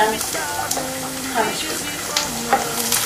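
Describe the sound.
Food being stirred in a pot while cooking, with repeated scraping and clattering strokes over a continuous loud sizzle of frying.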